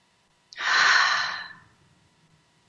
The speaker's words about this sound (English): So let's take another deep breath, everybody.